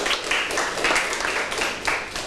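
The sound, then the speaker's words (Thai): Students clapping in a classroom during a mathematics lesson: a steady, moderately loud patter of many hands with rhythmic surges and faint voices underneath. “ถูกต้องนะครับปรบมือเพื่อนหน่อยครับ”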